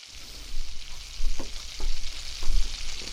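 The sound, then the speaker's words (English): Bacon fries in a pan with a steady, hissing sizzle, broken by scattered small pops and crackles that rise and fall in loudness. “What's that smell? Bacon.”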